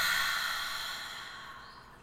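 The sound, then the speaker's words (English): A deep breath out through the mouth, a long, soft, breathy exhale that slowly fades away over about two seconds. “Let's take a nice, beautiful, deep breath in. Breathe in through your nose. And out your mouth.”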